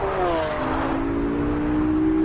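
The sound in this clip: A car being driven fast makes a loud, continuous engine drone with strong harmonic tones that shift slightly in pitch. It holds steady through the whole stretch with no talk over it.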